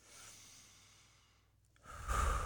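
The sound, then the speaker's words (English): A slow, deep breath in and out during a guided breathing exercise: a soft, airy inhale that gradually fades, a brief hush, then a fuller, louder exhale rushing out at the end, with no talking. “Take a deep, deep breath in”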